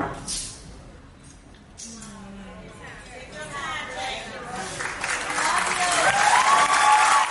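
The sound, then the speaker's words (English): An audience applauds and cheers an honoree giving a Vanguard Award acceptance speech at an awards ceremony. The clapping is steady and grows louder toward the end, with voices mixed in. “At the very beginning, he got emotional and started to cry, but the audience cheered him on.”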